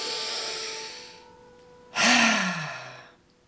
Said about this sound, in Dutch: En adem nog maar eens diep in.